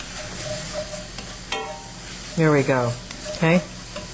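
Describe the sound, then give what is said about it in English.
Onions sizzle in a pan being deglazed over a flame, a steady frying hiss running under a voice that speaks briefly. “And that's going to deglaze the pan and get all that. And we leave the flame on.”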